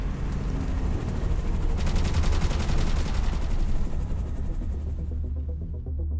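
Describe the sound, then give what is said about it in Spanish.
Automatic gunfire rattles in rapid, dense bursts that form a nearly continuous barrage over a low droning hum, with the sharp crackle thinning out near the end. “¡Ah! ¡Nos disparan! ¡Cúbrete!”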